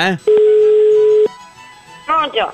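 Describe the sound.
A single steady telephone tone sounds for about a second while a prank call is placed. Brief bits of speech come just before and after the tone.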